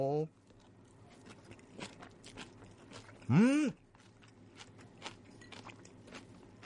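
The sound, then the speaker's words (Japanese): Crisp crunching of someone chewing a pea shoot and wakame salad: many faint, irregular bites and crunches, with a brief hummed vocal sound in the middle. “シャキッと感はこの音で感じていただけると思うんですけど、豆苗 の爽やかな香りと、でわかめの程よいこの感触と。”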